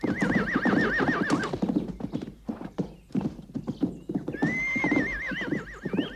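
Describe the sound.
A horse neighs with long, wavering whinnies at the start and again near the end, while hooves clip-clop in a steady, loud rhythm throughout.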